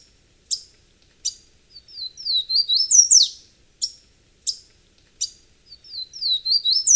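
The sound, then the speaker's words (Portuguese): Song of the pula-pula, a small restless bird: sharp, high chirps repeated at intervals, alternating with quick, rising and falling warbled phrases, loud and clear with no voices. “Esse é o canto, então, do pula-pula, uma ave pequena, muito inquieta”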